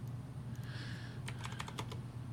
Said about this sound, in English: Okay, let's do that. Let's type that in.